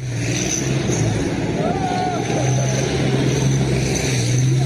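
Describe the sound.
An armored tank doing donuts on a street in Slavyansk, eastern Ukraine, gives a steady, loud engine drone with a deep low rumble and a faint higher whine riding on top.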